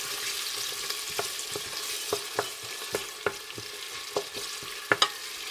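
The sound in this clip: Garlic and ginger sizzle in a pan as the base for a lentil soup, stirred with a wooden spoon. A steady, hissing fry runs throughout, broken by many light, irregular knocks and scrapes of the spoon.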